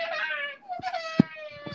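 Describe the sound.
A baby boy fussing: a thin, sustained whiny vocal tone runs throughout, with a few soft thumps and clicks, all fairly faint.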